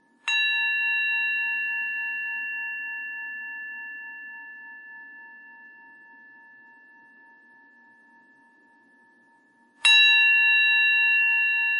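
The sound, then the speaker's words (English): Two strikes of a meditation bell, each a bright, clear tone with steady overtones. The first rings on and slowly fades for about nine seconds before the second strike sounds loudly. “And as we've been doing, we'll listen to the sound of the bell.”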